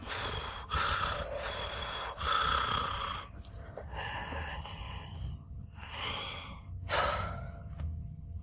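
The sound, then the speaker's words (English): Heavy, rasping breaths of a video game creature come in a long series of noisy inhales and exhales, some snorting and wheezy, with short pauses between them. “There's a brief silence as you listen to it breathe for a second.”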